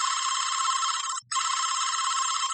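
A telephone rings unanswered, a bright, warbling electronic ring in two long bursts split by a brief gap.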